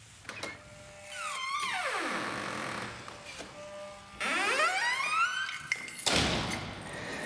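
An evening museum door opening in Frastanz, Vorarlberg, with a digital central key: faint clicks and thuds, then two motorised whirs that sink in pitch, with a clunk near the end.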